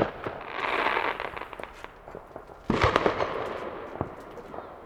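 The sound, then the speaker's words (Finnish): New Year fireworks rockets whooshing and crackling: a rushing hiss gives way to a louder burst midway, followed by scattered sharp pops and crackles. “Minut valittiin rakettien heittäjäksi.”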